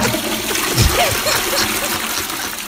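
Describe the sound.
A toilet flush sound effect: a continuous rush of swirling, splashing water that holds a fairly even loudness from start to finish.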